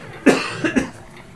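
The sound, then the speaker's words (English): A person coughs: one sharp, loud cough, then two smaller coughs in quick succession that fade out. “now I have to cough”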